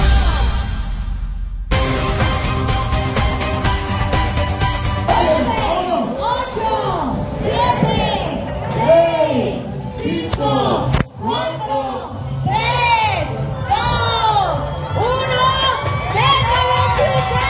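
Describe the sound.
A crowd cheers at the start of a running race in San José del Cabo, Baja California Sur. Loud, continuous cheering, shouting and whistling swell after a brief silent opening, with many voices mixed together.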